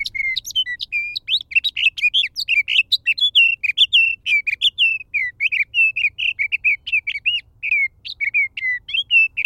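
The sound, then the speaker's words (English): A sage thrasher sings from atop a clump of sagebrush, pouring out a continuous rush of rapid, high warbled notes and trills with barely a pause, clear and alone. “When a sage thrasher, perched atop a clump of sagebrush, tips its head back to sing, the notes rush forth.”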